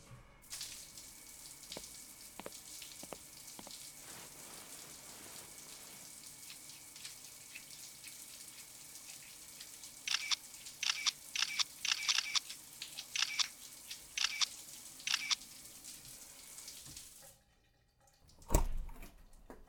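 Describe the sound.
Running shower water makes a steady broad hiss with scattered small clicks, then a cluster of sharper splashing bursts midway. The flow stops near the end and is followed by one dull thump.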